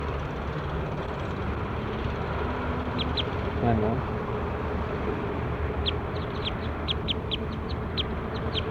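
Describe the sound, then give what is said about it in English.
Birds calling outdoors: short, high chirps, a pair early on and then a rapid run of many more later, over a steady low background rumble. “So recording now, I'm out here at 7:35 with birds 90, 91, 94, 95, and 96.”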